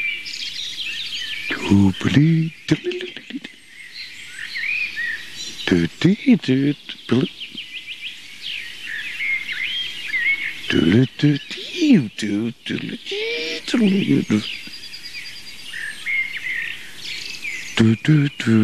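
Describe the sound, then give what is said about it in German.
A common blackbird sings varied, fluting melodic phrases in separate bursts, each strophe different, with chirping insects in the background and a voice talking between and over the song. “Auf jeden Fall schön hören, warum die Amsel in die Gruppe der Melodica gehört.”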